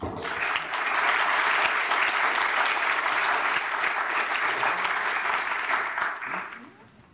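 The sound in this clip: Warm applause from an audience welcoming two speakers, dense clapping that swells quickly, holds steady for several seconds and then fades out.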